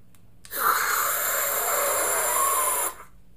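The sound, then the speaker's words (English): Oxygen hissing from a squeeze-trigger canister as someone inhales through the mouthpiece: one steady, broad hiss lasting about two and a half seconds, then cutting off sharply. “Okay, so I just inhaled a bunch of oxygen.”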